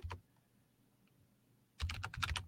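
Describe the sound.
Typing on a computer keyboard: a brief patter of clicks, a quiet pause, then a quick run of keystrokes that continues to the end, all fairly faint, with no talk.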